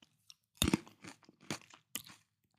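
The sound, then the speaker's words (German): Someone chewing and eating grapes: one loud, juicy crunch, then a few softer crunching and chewing bursts with short pauses between them, and no talk. “Ich darf vielleicht auch noch eine Weintraube essen, wenn das okay ist, ja? Zwei.”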